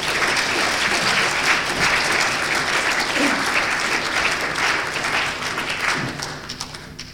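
An audience at a poetry reading in Hull applauds to welcome poet Maurice Rutherford. Dense, loud clapping holds steady for several seconds, then thins and fades near the end.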